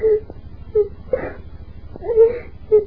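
Painful moaning from a castle in a drama sound effect: a series of short, wavering wails and whimpers that rise and fade in separate bursts over a low hum.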